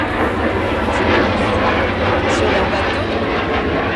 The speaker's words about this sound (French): C'est simplement un avion qui passe.